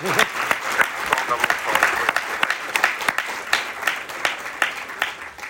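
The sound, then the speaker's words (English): Thunderous applause from an audience: a loud, dense wash of clapping with sharp individual claps standing out, sustained across the whole stretch and slowly thinning toward the end. “There's thunderous applause.”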